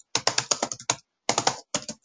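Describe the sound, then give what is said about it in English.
Typing on a computer keyboard early in the morning: many quick, crisp key clicks in three bursts, the first longest, separated by short silent pauses, with no voices. “I think my typing at this early hour of the morning leaves something to be desired.”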